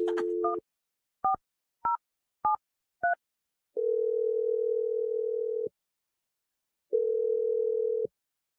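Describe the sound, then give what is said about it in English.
A telephone dial tone breaks off into five short touch-tone beeps as a number is dialed, followed by two long, steady ringing tones separated by a pause. “I'm dial number right now.”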